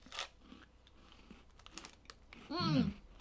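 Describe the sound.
A loud, crisp crunch of someone biting into a chocolate cookie with a coffee-flavoured biscuit and chocolate filling lands near the end, after a few faint rustles and mouth sounds.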